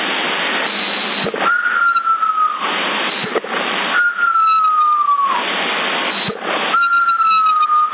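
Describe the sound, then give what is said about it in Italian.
A person whistles over a CB radio, giving three sustained tones that each drift slightly lower in pitch, separated by stretches of radio hiss and static with sharp clicks between them. “Avanti il fischio, chi è? Avanti il fischio, che non sai nemmeno fischiare.”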